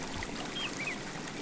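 River water flows along the Avon River in Stratford as a soft, steady, even wash of rushing noise, faint and unbroken throughout.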